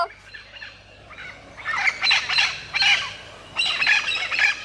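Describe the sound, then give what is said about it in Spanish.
A flock of green parrots squawks in a few overlapping bursts of harsh, raspy calls that grow louder and then continue, with no voices over them. “Colgando de la soga, como estaba, vio pasar una bandada de loros verdes.”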